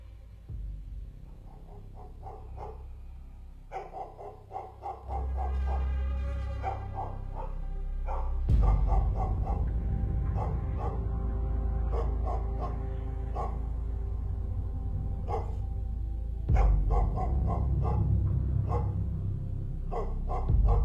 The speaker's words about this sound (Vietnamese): Đầu đây những tiếng chó sủa nhát gừng hướng thẳng về chỗ đại viện.